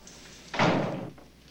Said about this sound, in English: then shuts the door angrily behind them